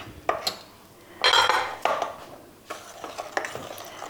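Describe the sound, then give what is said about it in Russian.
A spoon stirs cocoa batter in a bowl, giving a few clinks and scrapes of metal against the bowl in short uneven bursts, with quieter scraping in between. “Опять перемешали немножечко.”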